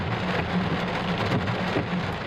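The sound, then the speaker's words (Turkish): Heavy rain pouring down during flooding in the Antakya and Defne districts of Hatay, a dense, unbroken roar of countless drops striking surfaces at a steady, loud level. “Antakya ve Defne ilçelerinde su baskınları yaşandı. Bardaktan boşalırcasına yağdı.”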